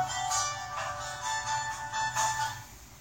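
Mobile phone ringtone going off during a lecture on hadith: a bright, pulsing electronic melody with repeating high notes, loud and continuous throughout, with no voices over it.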